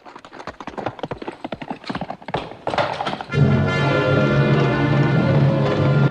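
Hooves of a horse galloping at night across open plains: rapid, uneven clip-clop thuds fill the first half, then a loud, sustained tonal sound takes over and holds steady.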